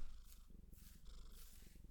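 A cat purring softly, a low, even rumble pulsing in steady rhythmic cycles, faint and heard alone.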